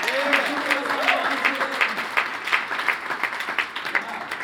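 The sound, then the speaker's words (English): Applause from a church audience at a Sunday service: dense, steady clapping with sharp individual claps that runs for the whole stretch, with some voices mixed in near the start. “Come on, put your hands together. Show some love.”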